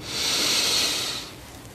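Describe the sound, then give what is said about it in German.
A slow, deep inhale during a guided meditation: a soft, airy hiss swells, holds steady, then fades over nearly two seconds, with no talking. “Wir nehmen gemeinsam einen tiefen Atemzug und atmen ein”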